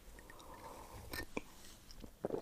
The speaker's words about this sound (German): Ich nehme nochmal einen großen Schluck Kaffee.